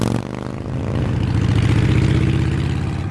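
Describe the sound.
A motorbike engine revs with two riders aboard as they speed up: a loud, buzzing mechanical drone that swells in volume after the first second and stays strong.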